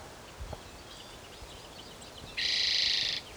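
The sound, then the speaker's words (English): A chipping sparrow sings one short, dry, high-pitched trill that lasts under a second and stands out clearly over a faint, quiet background. “Chipping sparrow singing.”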